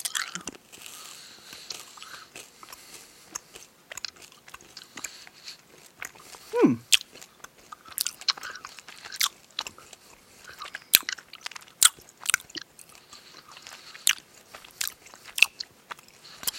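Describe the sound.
Hard Jolly Rancher candy is bitten and crunched, giving many sharp, irregular cracks and crunches that come in scattered clusters at a fairly quiet level.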